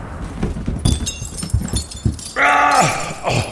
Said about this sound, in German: Warte. Fenster eintreten hilft jetzt auch nicht.